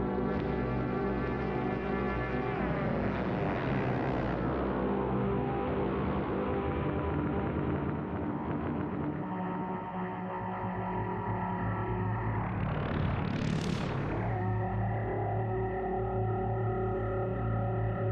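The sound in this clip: A modular synthesizer oscillator run through phase distortion gives a sustained, buzzy, harmonic-rich tone that shifts in timbre and rises into a bright swelling sweep late on before settling back.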